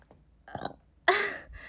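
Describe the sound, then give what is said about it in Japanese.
A single loud, throaty burp after drinking from a 2-liter plastic bottle, preceded by a few faint, small mouth and throat sounds. “ゲップも出そうだし、”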